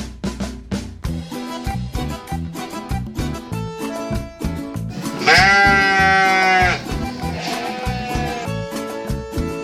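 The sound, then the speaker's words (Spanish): A sheep bleats in one long, loud, wavering call of over a second, rising clearly above a busy background of short repeated sounds. “Es nuestra oveja, que suena así.”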